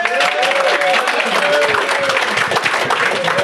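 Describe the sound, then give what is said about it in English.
Audience applause for a guest at a live talk event. A loud, dense patter of clapping fills the whole stretch, with some voices mixed in. “So Russ Fostino's here. Russ, give him a hand. Big hand for Russ.”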